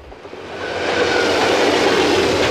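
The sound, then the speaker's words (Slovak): An express train thundering across a viaduct overhead, heard from beneath: a broad, roaring rumble that swells over the first second and then holds steady and loud to the end. “Takto to znie, keď stojíš pod viaduktom a nad hlavou ti prehrmí rýchlik.”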